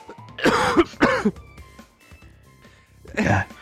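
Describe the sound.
A coughing fit of a few harsh, rasping coughs: two bursts in quick succession, then another after a short pause, fairly loud and partly voiced, as if the person can barely breathe.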